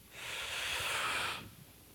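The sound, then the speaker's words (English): One long, deep breath during a religious gathering, an airy hiss that swells and holds for about a second before falling back to near silence. “we need to take a deep breath, hold it in, and breathe out freedom”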